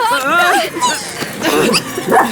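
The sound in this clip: Excited small dogs whimper and yip in high, wavering cries while tangled in their leashes, with people talking over them.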